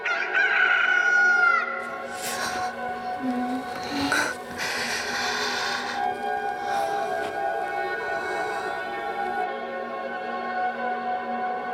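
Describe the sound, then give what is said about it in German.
A rooster crowing at dawn after jumping onto a heap of field tools: one loud, strained crow opens, followed by quieter, drawn-out tonal sounds. “Auf ein Stillleben von Feldwerkzeug springt hinauf ein Hahn, er schlägt die Flügel, bläht den Hals und verkündet den Morgen.”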